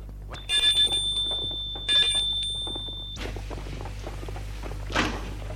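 A doorbell rings twice at a white villa set in a tree-lined park on the heights. Each ring is a steady, bright, high tone lasting about a second, with a short gap between the two rings.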